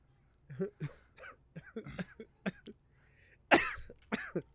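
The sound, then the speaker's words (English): Coughing and choking on breath: a person hacks out a run of many short, breathy bursts at uneven intervals, with the loudest and roughest coughs coming near the end. “I'm choking on my breath.”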